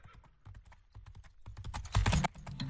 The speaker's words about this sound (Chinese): 就听见驿站外传来脆响的马蹄